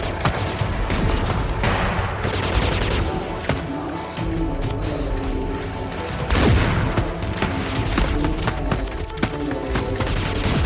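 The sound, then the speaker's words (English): A war scene erupts in loud, continuous battle noise: dense bursts of gunfire crackle over booming explosions, with a heavy blast standing out partway through and no pause in the chaos. “Follow the glorious sounds of war and pray that the gods have a plan for you.”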